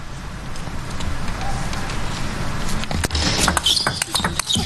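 Light, sharp ball taps of a table tennis serve at 12-11 in a match featuring Swedish player Karlberg, the serve going to the right half of the table; several quick clicks stand out near the end over constant crowd noise.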